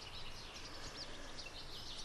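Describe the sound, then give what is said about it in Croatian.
Faint birdsong in a natural outdoor setting, with brief high chirps scattered through a steady hiss of background noise and no voices. “A nitko ne sluša ptice. A ptice? Da. Samo slušaj. Gle kako je lijepo.”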